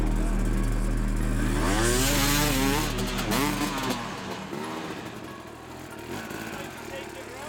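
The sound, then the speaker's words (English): A motorcycle engine runs loud and rough, overheating with its cooling fan not running, its droning pitch wavering up and down before the sound drops to a quieter, steadier rumble. “This bike's getting hot. It's boiling a bit. Boiling a bit. Steam coming out.”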